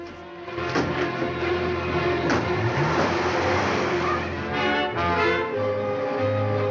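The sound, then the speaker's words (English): Engine roar of a sporty maroon and cream convertible speeding off down the road, a loud, sustained drone that swells after a quieter start and holds steady throughout. “Roby speeds off down the road in his sporty maroon and cream convertible.”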